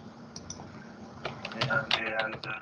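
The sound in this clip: Typing on a computer keyboard over a distorted remote call line: a few quick, crisp clicks clustered together, mixed with a voice speaking underneath.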